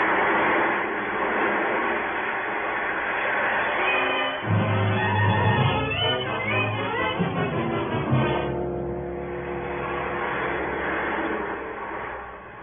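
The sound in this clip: Roller coaster ride sound effect in a radio drama: a continuous rumbling, rattling roar that swells into a heavier, clattering surge midway, then settles back into a steady rush.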